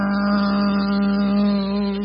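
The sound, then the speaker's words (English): A voice imitates a car engine revving while the car moves off with its emergency brake still on: a loud, sustained buzzing drone held at a steady pitch for about two seconds, alone without other talk. “that engine just revved up. It was like,”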